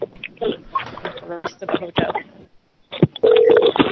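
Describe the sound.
Telephone dialing to call a restaurant: a person talks first, then after a short pause a steady electronic phone tone sounds loudly to the end.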